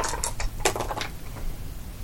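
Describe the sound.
Dice rattle and clatter in a tabletop game as they are re-rolled, with several quick, bright clicks over about a second before the sound dies down.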